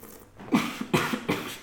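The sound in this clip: Someone coughs after a gulp of hoppy grapefruit IPA beer went down the wrong way. A few sharp, choked coughs come in quick succession over less than two seconds.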